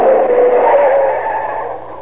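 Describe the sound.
A car speeds through a turn during a chase, its engine a steady, loud roar with a sustained whine that slowly fades toward the end.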